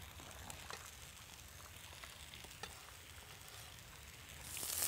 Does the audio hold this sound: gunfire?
no